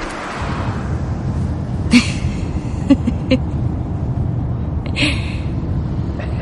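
A chauffeur-driven car pulling away in a film scene: a low, steady engine rumble runs throughout, with a few sharp clicks and short bursts of hiss scattered over it.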